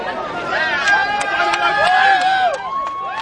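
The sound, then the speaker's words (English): Crowd of visitors at a race finish line in Manger Square, Bethlehem, a steady babble of many voices with scattered louder shouts and calls rising out of the chatter throughout. “And here at the crowded finish line in Bethlehem's Manger Square, and we haven't seen this many visitors here in Bethlehem, a town so dependent on tourism, for a long time.”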